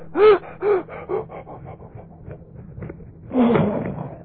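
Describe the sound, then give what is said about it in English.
A voice imitating someone gasping for breath in cigar smoke: a few sharp, strained gasps, then fainter, shorter breaths, ending in one longer rasping gasp. “So you take a breath, you go, and when you do, your lungs half fill up with smoke. And so then you take another, and go,”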